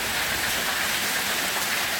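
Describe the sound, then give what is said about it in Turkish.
Heavy rain pours down onto streets during a storm with hail, making a steady, dense, unbroken hiss throughout, with no voices. “Sağanak ve dolu caddelerde su birikintileri oluşturdu.”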